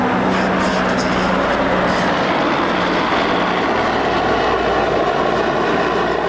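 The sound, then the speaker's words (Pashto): Steady, loud drone of military aircraft circling over Marjah: two helicopters, a jet and a large reconnaissance plane. Their engine roar blends into one continuous rumble that never lets up. “د مرجه پر اسمان د بارنوي ځواکونو دوه چورلکې، یوه جوټ او یوه هم ډیر ستره کشفي الوتکه ګرځي.”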